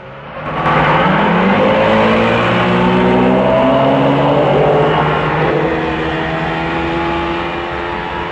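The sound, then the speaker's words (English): Four motorboats roar as they speed off across the water toward a bayou. Their engines make a loud, sustained droning whine whose pitch climbs early on and then holds for several seconds. “A group of men leap into action and run to boats. Four speed off in the direction of the Irish Bayou.”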